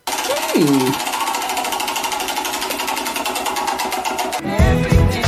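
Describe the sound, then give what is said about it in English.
A spinning prize wheel rattles with rapid, evenly spaced clicks that form a fast, steady ticking for several seconds, with a brief vocal sound at the start and a louder burst of noise near the end. “We have not spun the wheel of destiny.”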